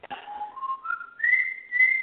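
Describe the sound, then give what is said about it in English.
A pet bird whistles a few pure, clear notes that glide and step upward in pitch, starting mid-high and ending shrill. The whistling is moderately loud and heard alone, with no talking. “that's Cosmo whistling. Oh, I love it.”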